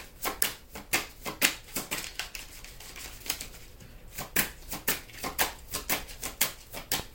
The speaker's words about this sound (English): Cards went every way. I had 2 cards go that way and 4 cards go this way.